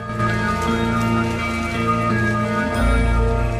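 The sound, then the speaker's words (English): Rain falls on the bristling branches of a pine tree in a misty mountain forest, a steady, dense wash of patter that continues throughout and swells slightly near the end, with a low tonal hum beneath. “Raindrops on the bristling branches of a pine tree”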